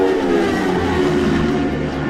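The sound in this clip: Racing motorcycles roar past during a sport bike qualifying session at the Isle of Man TT races: a loud, dense engine howl with a voice talking over it.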